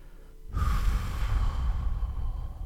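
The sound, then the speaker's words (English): A long, full exhale of breath during a guided breathing exercise: a steady, breathy rush that starts abruptly and holds at an even level for about two seconds, with no talking. “first, exhale all of your breath totally.”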